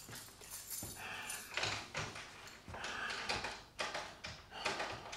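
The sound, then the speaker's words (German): A key rattles and scrapes in a door lock it does not fit, producing several bursts of metallic clatter and jiggling with brief pauses between them. “Was ist los? Der Schlüssel passt nicht.”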